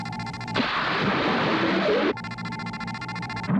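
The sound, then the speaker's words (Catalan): Bombs explode against a rock wall as an amphibious craft shakes among falling rock fragments: one long, loud burst of broad rumbling noise, set between stretches of a steady, buzzing tonal sound. “Les bombes s'estavellen contra la paret davant seu i la nau tremola entre fragments de roca que cauen.”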